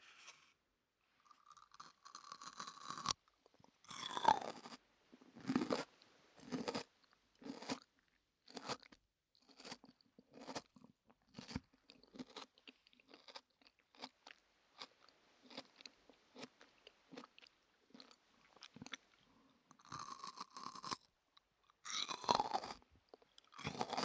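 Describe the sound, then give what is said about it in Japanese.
Crisp, wet crunching of raw daikon radish dipped in a dressing-like sauce, with many loud bites and chewing bursts in an uneven rhythm and no talking. “今度はドレッシング的なものをつけて。あ、ちょっと飛び散っちゃった。食べていきたいと思います。”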